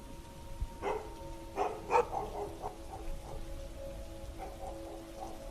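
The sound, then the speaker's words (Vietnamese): Rain falling steadily in a village at night while dogs bark: a few faint, sharp barks come in a loose cluster early on, then sparser, softer yaps fade beneath the soft, constant hiss of the rain. “Ở bên ngoài mưa đã bắt đầu rơi dày hạt hơn. Tiếng mưa gió hòa cùng với tiếng chó ở trong làng cắn nhấm nhằng làm cho không khí càng thêm quái đản.”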